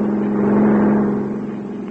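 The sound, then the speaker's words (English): A car drives past with a steady, low engine drone that swells slightly and then eases off, heard alone without voices. “He drove right past us.”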